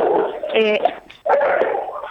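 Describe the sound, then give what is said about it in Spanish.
A dog gives a short, yelping bark in the middle of ongoing conversation. People keep talking before and after it. “Se me puso a ladrar el perro.”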